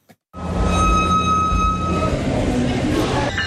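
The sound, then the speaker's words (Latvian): Morning ambience at Santa Clarita train station near Los Angeles: a dense, steady rumbling roar with a thin high whine on top, holding loud and even for about three seconds before cutting off abruptly. “Rīts Santa Klaritas stacijā. Tā ir aptuveni 40 minūšu braucienā no Losandželosas centra.”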